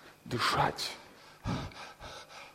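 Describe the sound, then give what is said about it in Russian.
A big breath is drawn in just before someone squeezes into a narrow tunnel: a quiet, breathy gust, then a second brief breath, with soft sounds between them. “And then one last final big breath.”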